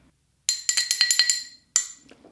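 A metal straw clinks against a glass in a quick run of about seven bright, high clinks. After a short pause comes one more clink, followed by faint rustling.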